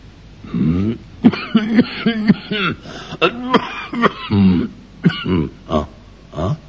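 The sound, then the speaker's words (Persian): A man coughs and clears his throat, a voice acting out the sound in a run of short, harsh, rasping bursts with grunt-like catches between them. “ولی بعد سرفه‌ای کرد و گفت:”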